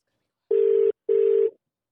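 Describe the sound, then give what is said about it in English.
Ringback tone of an outgoing telephone call: two steady, mid-pitched electronic tones, each just under half a second long and separated by a short silence, heard alone and fairly clear. “We're going to call it now. Okay, here we go. Oh, there we go. It's ringing.”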